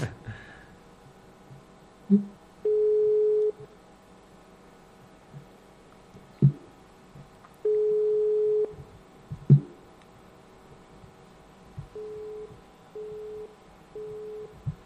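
A telephone busy signal on a call that fails to connect: five flat beeps, two longer ones followed by three shorter ones in quick succession, broken up by a few sharp clicks from the line.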